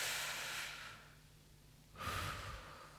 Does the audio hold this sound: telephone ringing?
no